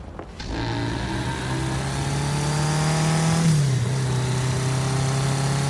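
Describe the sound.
A car engine drones steadily while driving with only the parking lights on along a potholed road, a constant low hum that dips slightly in pitch partway through.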